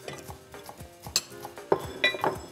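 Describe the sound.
Cutlery clinks and scrapes as a knife cuts cooked lamb on a plate, giving a run of light metallic taps with a few sharper clinks toward the end and no talking.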